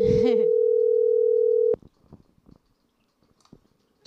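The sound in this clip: Telephone dial tone while a caller is being brought in: a steady, loud, unwavering tone runs for under two seconds after a short burst of voice at the start, then cuts off sharply at a click, followed by faint scattered clicks.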